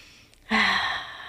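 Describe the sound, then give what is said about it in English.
A single deep breath begins abruptly after a near-silent moment, a full airy rush that holds steady and then slowly tapers off. “take a deep breath”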